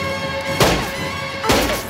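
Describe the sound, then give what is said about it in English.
A car rams into an upturned van: two heavy crashing impacts about a second apart over a steady droning tone. “The car rams the van again and stops.”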